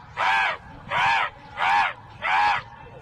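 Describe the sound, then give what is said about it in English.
Four loud, harsh crow caws come in an even rhythm, each lasting about half a second, separated by short gaps with a faint background hum. “I want AI to teach me how to summon crows.”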